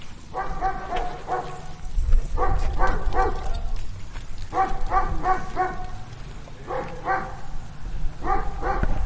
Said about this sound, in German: Auch nochmal hier so ein klassisches Geräusch, finde ich, wenn man in Brandenburg unterwegs ist. Bellt auch mal irgendwo ein Hund, auch mal direkter.